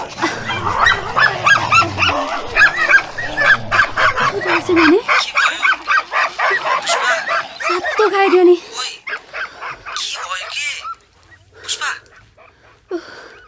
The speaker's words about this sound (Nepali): यो कुकुरहरू झगडा गरे रहेछ, कस्तो तर्स्यो भने।